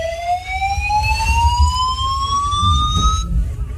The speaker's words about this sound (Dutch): En dan nu een evacuatie. Nee, dit was pas geleden hier in het gebouw, moet je horen.